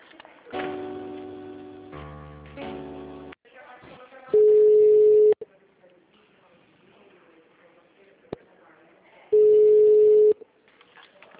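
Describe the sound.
Telephone tones play while a call to a city hall office is transferred: a short run of electronic notes, then two long steady beeps about five seconds apart, with faint hiss between.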